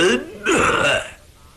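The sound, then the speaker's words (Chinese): A voice imitates the cough of a steady old man stroking his white beard: a rough, throaty vocal burst with a brief lead-in, loud and clear with no other talk. “陶福安那人稳当，手托着白胡，先咳嗽了一声”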